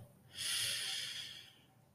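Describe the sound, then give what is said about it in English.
A person takes one deep breath in: a single breathy inhale, mostly through the nose, that swells and then fades over about a second. The breath is fairly quiet and there is no talk. “And I want you to take a good breath, a good breath. Inhale.”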